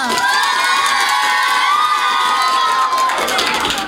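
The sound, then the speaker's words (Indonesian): A crowd of children cheers and shouts for a student performer from an elementary school, a loud, sustained roar with whoops that holds steady and eases slightly at the very end. “Sekali lagi dong, berikan tepuk tangan yang meriah untuk Vio.”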